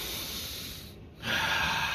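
A deep breath drawn during rebirthing breathwork: a long, airy rush of breath, a brief pause, then a stronger, brighter rush of air that holds steady to the end.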